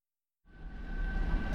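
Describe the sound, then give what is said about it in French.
Metro station ambience rises out of silence into a steady low rumble with a thin, sustained whine, growing gradually louder over a second or so. “Dans une station de métro.”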